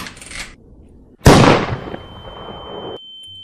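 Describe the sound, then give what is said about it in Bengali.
A single loud gunshot blast with a sharp onset and a long fading tail, preceded by a quieter rustling noise and followed by a thin high ringing tone. “দরজা খুলতেই সঙ্গে সঙ্গে সুজয়ের বার খুলি ভেদ করে চলে যায় গুলি”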